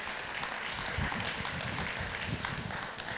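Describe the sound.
An audience applauds to welcome guests with a dense, even patter of clapping that holds steady and fairly quiet for about three seconds, with no talk over it.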